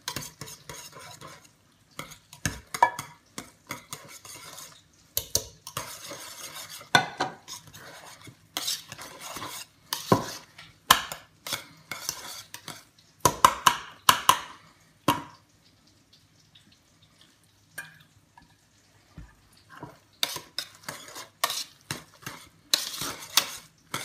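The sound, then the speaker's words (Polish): Vigorous stirring with a utensil as milk with a little butter is slowly poured in. Many scraping clinks and taps come in uneven bursts, easing off into a quieter stretch midway before picking up again. “I nasze mleko z trochę masłem będziemy powoli wlewać i mieszać to mocno.”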